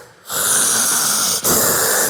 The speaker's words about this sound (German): aber er ist wirklich ein unfassbar brutaler Schnarcher.